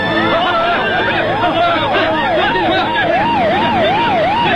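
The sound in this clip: Police car sirens from many police cars: loud, overlapping wailing tones that sweep up and down in a steady repeating cycle, continuous throughout over busy background noise.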